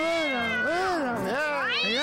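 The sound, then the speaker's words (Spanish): A cat meows in a drawn-out, wavering cry, a few long swooping calls running together as the pitch arches up and down, loud and continuous throughout. “Giovanna, cuidado con el gato. Párate, rajuña el gato.”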